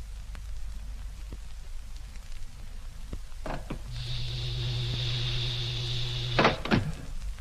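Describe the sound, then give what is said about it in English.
A ship's main door opens with a sharp clunk, then a steady motorized whine that lasts a few seconds. It ends in a couple of heavy clanks over a faint, rain-like hiss. “Well, let's open the main door and get inside.”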